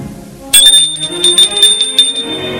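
A doorbell rings at an old townhouse on a Paris boulevard. The bright, metallic ringing starts suddenly and loudly, then shimmers and sustains for about two seconds.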